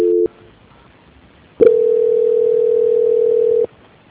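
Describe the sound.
Telephone call-transfer tones on a line: one short steady beep, a silent pause, then a single long unbroken tone of about two seconds that stops abruptly, heard alone.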